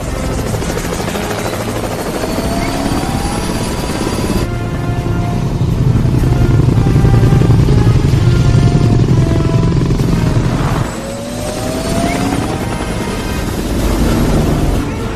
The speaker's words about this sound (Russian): Военные вертолеты во главе с драконом поднимаются.